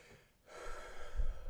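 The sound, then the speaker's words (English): A long, deep breath swells in after a brief quiet moment. It is a loud, airy rush of breath that holds steady for about a second. “Made you breathe very deeply there. Did you just breathe deep? Long and deep.”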